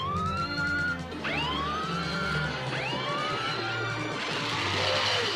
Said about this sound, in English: As Bravestar pulls a lever, a siren blares a warning to the townsfolk.